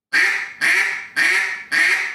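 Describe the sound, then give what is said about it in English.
Imitated hen duck quacks, deliberately slowed by easing the air: four loud, drawn-out quacks at a steady, even rhythm, each fading slightly before the next, heard alone without talk. “If you was to take a quack and just do a quack. Well, right there, if I slow my quack down.”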